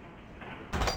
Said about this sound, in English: The doors are really unclear on these. Like, the spot to aim to open one is confusing.